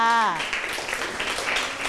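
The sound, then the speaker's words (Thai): Students in a classroom applauding a classmate: a voice briefly at the opening gives way to a steady spread of many hands clapping that continues to the end. “ปรบมือให้กับเพื่อนค่ะ”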